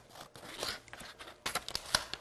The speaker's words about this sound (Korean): 가위, scissors 가지고 반으로 탁 잘라주세요